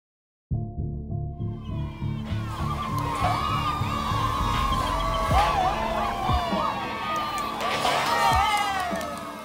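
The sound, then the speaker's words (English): Crowd cheering outside the home of former South African President Jacob Zuma as his nine-car motorcade leaves the driveway. A dense, continuous roar of many voices carries shrill shouts and whistle-like cries throughout. “What you can hear there are the sounds of people gathered outside the home of former South African President Jacob Zuma last Wednesday. And they were cheering as Zuma's motorcade of nine cars left his driveway”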